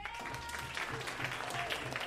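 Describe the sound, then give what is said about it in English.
Applause from an audience voting for a contestant in a game about the best tornado impression: quiet, steady clapping from a crowd that runs throughout without clear breaks. “All right, by show of applause”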